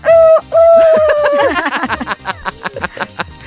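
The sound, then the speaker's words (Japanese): An imitated rooster crowing at night: a long, steady, held note that briefly breaks and resumes, then glides downward into a choppy, rhythmic run of shorter, cackling pulses. The sound is loud. “夜に鳴く鶏。”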